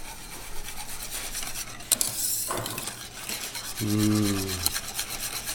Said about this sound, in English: And that's almost all melted. Now we'll just keep stirring.